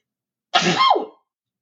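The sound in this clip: A single sneeze, a sudden loud breathy burst that trails off with a brief voiced tail within about half a second, heard alone.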